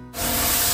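Spray hissing during a car detailing treatment, one abrupt, steady burst of broad hiss that holds for under a second.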